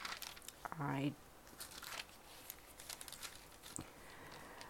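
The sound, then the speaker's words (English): Pages of a Bible are turned by hand. A louder papery flutter and crinkle comes near the start, followed by a few softer, scattered rustles over a low, steady background hiss. “none of this is rehearsed, so you'll be hearing me turning pages.”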